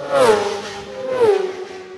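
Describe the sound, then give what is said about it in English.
Two racing motorcycles roar past one after another during a road race. Each loud engine whine swells and then drops in pitch as it goes by. “Two more bikes into view.”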